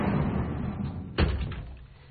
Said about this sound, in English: How about getting the doors there for me, champ? Appreciate it. One, and then... the other.